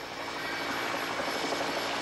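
A search helicopter's rotor whirs in a film scene as a boat heads back to shore from the ocean, a continuous, even, fairly faint drone with no voices.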